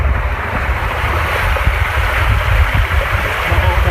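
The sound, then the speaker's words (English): Raw sewage pours into the headworks of a treatment plant through two inlet pipes, producing a loud, continuous rushing and splashing of water with a steady, even roar. “This is the beginning of the treatment process at the plant. The raw sewage is entering the plant right here. There's two pipes.”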